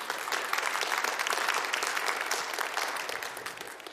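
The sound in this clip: An audience applauds to welcome a speaker to the stage, a dense, steady clapping that stays loud for a few seconds and then tapers slightly.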